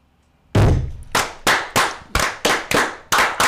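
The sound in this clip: A group claps in unison as a ritual fire. Nine loud, sharp claps ring out: a short pause follows the first, then the rest come in a fairly even, brisk rhythm.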